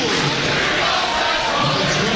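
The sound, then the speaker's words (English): A basketball crowd roars and chants for Central, a thick, unbroken wall of voices at a steady loud level with no pause across the stretch. “Now we've got Central crowd coming to life again with a "Here we go, Central."”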